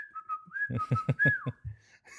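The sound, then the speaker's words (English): A person whistling a short tune. The clear, fairly high tone holds, dips slightly and then steps back up before fading briefly, and a final note follows. “he's just whistling”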